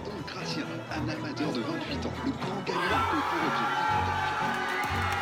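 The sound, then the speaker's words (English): Villagers cheer and chatter at Le Cardinal in Nouzonville, celebrating their homegrown chef's victory. Mixed talk and laughter swell into louder, denser crowd cheering midway through. “everyone erupted into hugs and cheers. Champagne corks popped and glasses clinked as the village of Nuzonville toasted the victory of their homegrown chef.”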